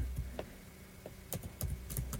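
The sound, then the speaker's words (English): Keys clatter on a computer keyboard as text is typed in, producing a series of crisp, irregular clicks with short pauses between bursts. “Wait, let me just type this in here.”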